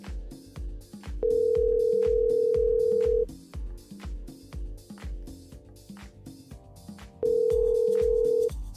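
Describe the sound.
Ringback tone of a telephone call ringing through: two long, steady mid-pitched tones separated by a pause of several seconds, over a rhythmic music beat.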